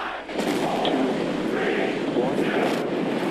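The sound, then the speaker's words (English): A SpaceX Starship rocket lifting off on its third test flight in Texas gives a dense, continuous roar with a rough, crackling texture, holding loud and steady throughout. “In Texas, the third test flight of a SpaceX rocket got off to a promising start.”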